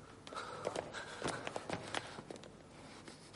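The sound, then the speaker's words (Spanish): Footsteps of a man walking into an office in a period drama film, unsteady and staggering, with many irregular soft steps and scuffs over a steady background hiss. “pasa a un despacho, se tambalea y es ayudado por el marqués y un médico.”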